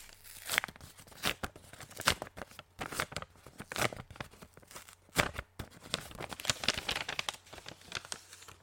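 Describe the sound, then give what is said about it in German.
Paper tearing and crinkling as a letter envelope from Italy is opened, many soft rips and rustles in irregular bursts, fairly quiet throughout and with no speech. “In meinem Briefkasten war nämlich Post aus Italien. Und ich habe extra gewartet, um ihn mit dir zu öffnen. Soll ich mal reinschauen?”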